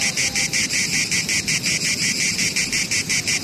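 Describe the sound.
Male cicadas singing to attract females: a loud, shrill, high-pitched buzzing chorus pulsing in a rapid, steady rhythm throughout.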